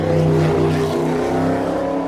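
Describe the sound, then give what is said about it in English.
A car engine drones loudly as it is driven and revved around a burning gas crater in Turkmenistan. The engine note is steady and humming with strong tonal harmonics, and it stays loud throughout the short stretch. “In 2019, Turkmenistan's weirdo president, Gurbanguly Berdimuhamedov, had himself filmed driving around it to dispel persistent rumours that he was dead.”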